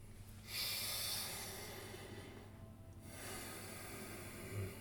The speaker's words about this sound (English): So let's all take 5 long deep breaths.